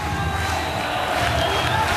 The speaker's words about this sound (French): Ils sont des ambiances qui sont géniales. Ça fait tellement plaisir de voir le public là qui soutient son jeune prodige.